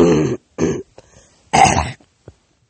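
Harsh throat clearing to bring up phlegm: a few rough, gravelly bursts, two close together, then a longer, louder one, with brief quieter catches between, no talk.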